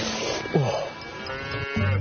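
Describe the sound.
Dairy cow mooing during hand milking by herders, with a couple of low, drawn-out moos over steady background noise.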